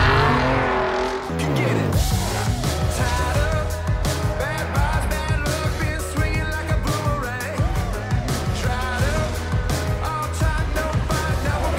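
Racing car engine noise with squealing tires from the video game Forza Horizon 5, a dense, continuous roar with repeated revving and dense harmonic layers throughout.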